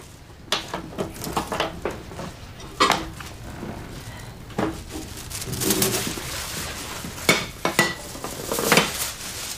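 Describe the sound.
Plates being fetched and set down, with many irregular clinks, knocks and clatters of dishes and utensils at moderate loudness, some strokes sharper and louder than others.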